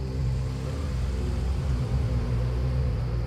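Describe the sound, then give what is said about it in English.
A car's engine gives a steady, low rumbling drone that stays even in loudness throughout, with no voices present. “I think I see a car coming.”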